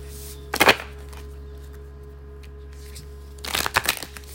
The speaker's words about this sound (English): I'm pulling a moon card.